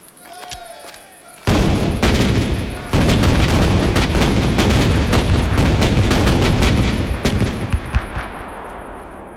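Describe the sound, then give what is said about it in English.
Ship's cannons fire a broadside: after a short quiet opening, a massive, prolonged roar of overlapping blasts and booms erupts and holds loud for several seconds before trailing off. “ran up the English colours, let fly. Single, vast, prolonged explosion.”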